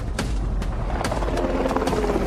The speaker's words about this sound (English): The helicopter was coming back for another pass.